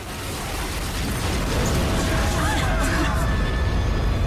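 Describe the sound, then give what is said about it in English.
Explosive blast as a tank blows open an embassy's front doors, heard as a loud, sustained, noisy roar that stays heavy from start to finish. “One of General Borgov's tanks blasts away the front doors.”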